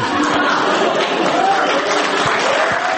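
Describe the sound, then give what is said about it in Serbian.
Young peers at a discussion about the European Union break into applause. The clapping is a dense, steady wash of sound that stays loud from start to finish. “Nagrađen je aplauzom svojih vršnjaka”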